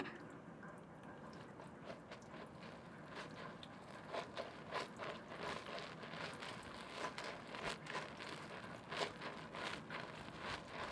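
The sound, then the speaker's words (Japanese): Soap rubbed onto a bath mitten before a back wash, a soft, faint run of repeated rubbing and swishing strokes that grows slightly busier after the first few seconds. “そしたら今度は石鹸つけてのお背中流しですね。ミトンに石鹸塗っちゃいますから、ちょっとだけ待ってくださいね。”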